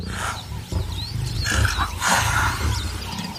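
Lions roaring around a leopard they have chased up a tree: deep, rough, repeated roars and grunts, loud and almost continuous with no pauses.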